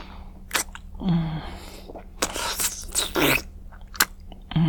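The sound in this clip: Someone bites into and chews crunchy homemade cookies, with several loud, crisp crunching bursts separated by short pauses, heard alone without talk.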